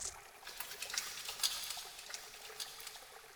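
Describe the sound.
Soapy lather being rinsed off fingertips and hands with water: a faint, steady wet trickle with soft crackling bubble pops scattered throughout and no voices.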